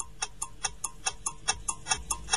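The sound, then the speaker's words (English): A quiz show's five-second countdown timer ticks during a question: quiet, sharp, evenly spaced clicks in a brisk, steady rhythm throughout. “Don't forget, that's 5-second timer.”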